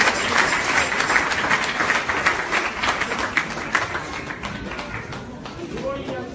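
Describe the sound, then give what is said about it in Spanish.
A church audience applauds, with dense continuous clapping that stays steady and eases slightly toward the end. Voices carry over the clapping. “Denle fuerte el aplauso, hermano, mientras se va a sentar.”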